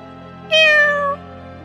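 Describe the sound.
A black cat lets out one clear, loud meow as it urges others forward. The call is bright and tonal and eases slightly downward in pitch before stopping, over a faint steady low hum.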